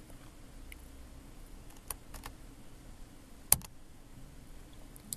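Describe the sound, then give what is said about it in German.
Computer keyboard keys pressed to take a screenshot of an app page, heard as a few faint, scattered clicks over a quiet background, with one sharper click standing out. “So, jawohl, hier haben wir unsere App gestartet und ich mache jetzt einfach einen Screenshot von dieser Seite mit den Videos.”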